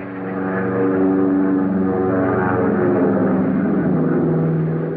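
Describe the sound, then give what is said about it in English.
A heavily laden transport plane takes off from a runway with a loud, steady engine roar. The dense droning rumble swells in at the start and then holds level throughout, with no voices. “the heavily laden ship was silhouetted against the blazing storage tanks as it taxied through the surging refugees down to the end of the runway. Those Japanese are closing in, Captain Moon. Yes, hang on. Now let's see if we can get off the ground.”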